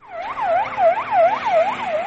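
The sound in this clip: An ambulance siren rushing through a scene of soldiers and blocked roads after an attack in Afghanistan: a loud, rapid wail that rises and falls in quick repeating cycles, with no voices.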